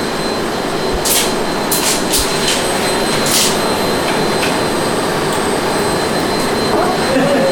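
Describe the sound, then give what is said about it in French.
A vacuum cleaner runs in a home during housework. It gives a loud, steady, unbroken whooshing drone, with a few faint brief clicks on top. “ils vont enregistrer le bruit d'aspirateur, madame. Vous pouvez laisser allumer.”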